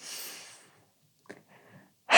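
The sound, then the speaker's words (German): A deep breath out, a soft breathy rush that fades within about half a second, then near silence with faint small sounds and a second loud breath at the very end. “Und mir hilft ein Dreischritt hier. Ich atme durch.”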